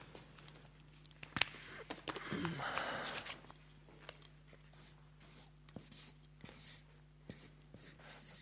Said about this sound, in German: Den schreibe ich euch hier mal kurz an.